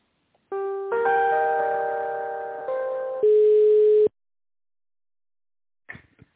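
Electronic telephone tones play while an office call is being transferred to another line, a steady run of pitched beeps shifting note a few times over several seconds, then silence and one brief faint blip.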